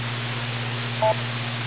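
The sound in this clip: One short electronic beep on a radio transmission, a two-tone dual-frequency blip lasting about a tenth of a second, standing out over a steady hiss and low hum.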